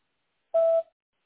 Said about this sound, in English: Please leave a message after the beep and I'll get back to you as soon as I can.